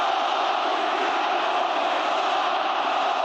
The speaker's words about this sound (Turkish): Trossard'ın imza törenine Muhammed Salah tezahüratları damga vurdu. Beşiktaşlı taraftarlar transfer gündeminde yer alan Mısırlı Yıldız lehine tezahüratlar yaptı.